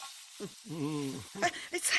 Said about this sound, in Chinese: 菜别炒糊了。